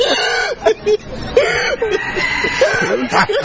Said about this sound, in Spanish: Y los pollos de fondo le contestan, escuchá.